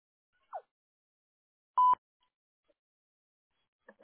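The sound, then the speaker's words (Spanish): A single short, steady electronic beep from a telephone voicemail system signals the start of recording. It stands out clearly against near silence, with faint brief sounds before and after it. “Favor de grabar su mensaje después del tono.”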